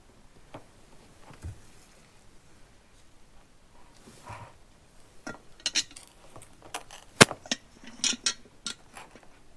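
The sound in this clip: A utensil stirs and clinks in a dish as water is mixed into a dry mixture. Soft scrapes and taps come at first, then grow into sharper, more frequent clinks in the second half.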